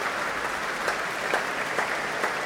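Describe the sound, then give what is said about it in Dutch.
A concert audience in Amsterdam applauds conductor Fabio Luisi and the orchestra musicians with sustained, dense clapping, a few sharper claps standing out now and then. “Dat mogen blijken uit dit grote applaus voor Fabio Luisi.”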